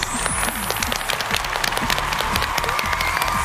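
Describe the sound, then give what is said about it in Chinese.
A crowd of many hands claps steadily for a Guangzhou choir being welcomed onto the stage, a dense, even patter of applause from start to finish. “让我们掌声欢迎广州星湖合唱团，欢迎各位。”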